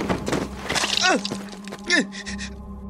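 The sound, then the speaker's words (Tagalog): A man falls from the ceiling and crashes onto the floor: a couple of heavy, sharp crashes with a shattering edge, the second near the end, with a voice heard around them. “Na out of balance ang tatay ko at nalaglag mula sa kisame pabagsak sa sahig.”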